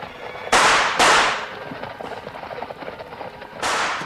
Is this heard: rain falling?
no

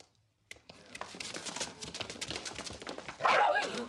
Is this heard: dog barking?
yes

